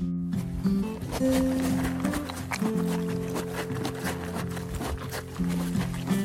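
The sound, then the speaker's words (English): A young Mustang horse walks along a trail, its hooves making many irregular clip-clop steps at a moderate level, with sustained low tones running underneath. “That is the sound of a very good baby Mustang who just got home.”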